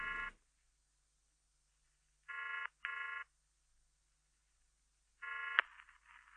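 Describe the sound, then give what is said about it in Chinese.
Ringback tones of a rotary-dial telephone call used as a Hong Kong-style intro effect before a song: a few short buzzy double bursts separated by silence, the last cut off by a sharp click. “在歌曲的前面加了一个这样的打电话的效果”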